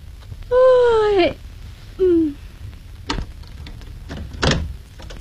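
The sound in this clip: A door of a home being opened late at night, its hinge giving a long creaking squeal that falls in pitch, then a shorter squeak, followed by a couple of dull knocks against a low background hum.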